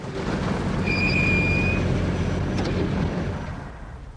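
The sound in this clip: A car drives and pulls up outside an apartment block, a steady, fairly loud engine and road rumble that eases off toward the end.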